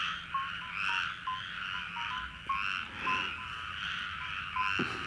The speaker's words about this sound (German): Das, was du jetzt hörst, sind Frösche.